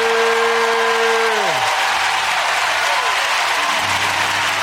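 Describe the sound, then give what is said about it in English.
Church audience applauding, steady, dense clapping that fills the whole stretch with sustained tones beneath it. “Come on, let's give the Lord a hand for it.”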